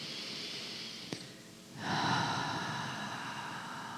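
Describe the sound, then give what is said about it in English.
A full, deep in-breath during a guided meditation: a tiny click, then a soft, airy rush of inhaled air that swells and holds steadily over a faint, constant background drone, with no talking. “And one more full breath in.”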